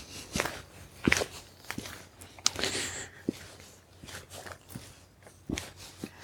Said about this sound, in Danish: Rent officielt forlader jeg nu skoven, går ud på grusvejen